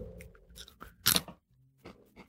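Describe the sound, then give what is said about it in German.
Crunching on salted pretzel sticks: a few sharp, dry crunches with one loud bite near the middle and softer chewing crackles around it, no talk. “Ich habe hier Salzstangen stehen. Du machst also das Gegenteil von trinken. Und trocknest ja, genau. dich schön aus.”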